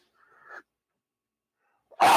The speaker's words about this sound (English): Oh, damn. Oh, that was a sneeze. That was gross.